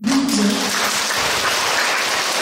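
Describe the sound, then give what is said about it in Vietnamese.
An audience applauds at a Buddhist sermon during the Vesak season. The clapping is brisk and continuous, starts strongly, and stays at an even level for a couple of seconds. “Nói tới đây thì thấy ai cũng vỗ tay hết”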